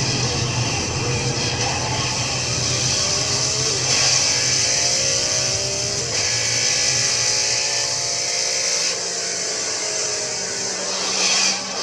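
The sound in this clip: A car engine accelerates in a steady drone whose harmonic tones climb gradually in pitch as it gains speed, with no talking over it.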